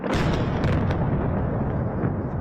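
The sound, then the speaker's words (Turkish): Artillery fire shelling towns in southern Lebanon: a few sharp booms near the start over a steady, dense rumble that stays loud throughout the short stretch. “Lübnan'ın güneyindeki beldeler topçu ateşine tutuluyor.”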